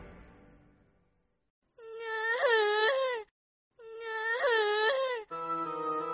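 A little pigeon cries in two long, high, wavering wails with a sobbing quiver, followed by a short steady tone.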